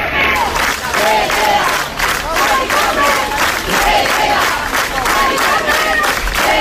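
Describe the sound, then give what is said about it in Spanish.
Neighbours chant loudly in support of a resident being evicted. A dense crowd repeats rhythmic shouted phrases in a steady beat, with some clapping mixed in, at full volume throughout. “Mucha presión vecinal que no han parado de corear para mostrar su apoyo a esta vecina. Vamos a escucharles.”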